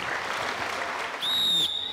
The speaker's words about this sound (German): Einmal kleiner Applaus für die.